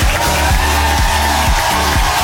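A live studio audience at an NRJ radio show cheers in a loud, continuous crowd roar that holds at a steady level throughout.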